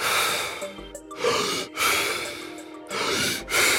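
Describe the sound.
Rapid, deep breaths from a breathing exercise: several loud, forceful inhales and exhales in quick succession, separated by short gaps.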